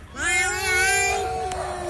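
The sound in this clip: A cat gives one loud, drawn-out meow that rises in pitch, holds, then drops and trails off, with no other sounds over it.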